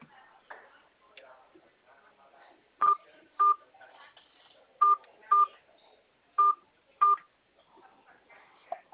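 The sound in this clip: Six short telephone keypad tones sound as a number is typed in. The sharp, identical beeps come in three evenly spaced pairs over a faint, quiet background.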